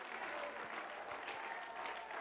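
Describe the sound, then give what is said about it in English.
A church audience claps hands in a dense, continuous round of applause that stays steady and even from start to finish. “Clap your hands and shout to the Lord.”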